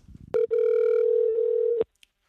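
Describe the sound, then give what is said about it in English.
A telephone tone as a call is placed to a listener: a short electronic tone, a brief break, then a long, steady, even tone that cuts off abruptly. “So go ahead and dial now. So we are going to call Lisa first”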